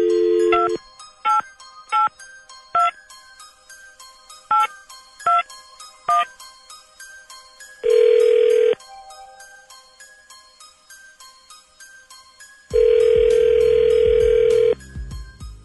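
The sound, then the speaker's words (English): A telephone being dialed at random: a run of short keypad tones with uneven gaps between them, then two steady ringback tones, the second one longer. “Dialing at random.”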